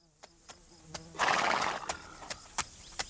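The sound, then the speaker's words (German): A horse gives a loud, shrill whinny that swells and fades, while hooves clip-clop in a steady rhythm of sharp taps before and after it, with a rider travelling along a valley. “Er reitet das Tal des Sacramento entlang”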